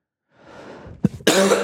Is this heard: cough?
yes